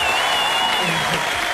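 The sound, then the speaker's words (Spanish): A live audience of young men gathered at the scene claps loudly, a dense burst of applause with voices mixed in, fading slightly toward the end. “A ver, un aplauso para todos los cabros que están acá en vivo, por mano.”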